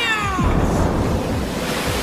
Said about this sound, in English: Fire and water, spring and flame. Bring the river to this fiery hell. Wash away those who would keep me from my quest. Bring forth the